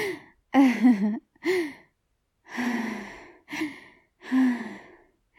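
Heavy, ragged breathing as someone catches their breath. Several loud gasping inhales and sighing exhales, some partly voiced, come in uneven bursts separated by short pauses.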